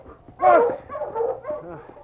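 A team of sled dogs yelps and whines on the trail, with one loud, rising cry followed by a few shorter, higher whimpers and barks of falling strength.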